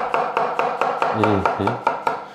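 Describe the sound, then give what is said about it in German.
A knife slices mushrooms held upright with the stems pointing away and turned by hand. About ten crisp, evenly spaced cuts land on the board, with a brief voice in the middle. “Ich nehme die einfach da äh, hochkant, also dass der Stielansatz von mir wegschaut. Mhm. Äh, nehme den ganz vorn, schneide einen runter und drehe einfach den Champion mit der Hand mit.”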